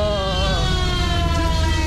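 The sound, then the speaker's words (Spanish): An ambulance siren passing on a road: a loud, continuous wailing tone with rich harmonics and a slight waver in pitch, heard alone. “Ah, dejen pasar. ¿Eso era la ambulancia?”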